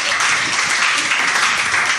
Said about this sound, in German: Ja, da kann man ruhig mal klatschen.